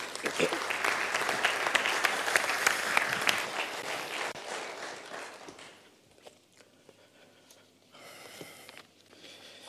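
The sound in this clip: A church audience applauds a guest speaker coming up to the front. The clapping is dense and steady for about four seconds, then thins to scattered claps and quiet movement.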